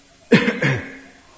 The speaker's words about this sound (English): and now I'm coughing.